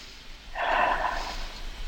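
A single slow, deep breath, audible as a soft airy rush that swells and fades over about a second, alone in near silence.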